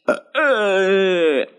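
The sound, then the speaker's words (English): A person lets out a loud, drawn-out, voiced burp lasting about a second, low and steady in pitch, preceded by a brief short grunt. “And then they had to repeat it because my burp, like, I guess, distracted everybody.”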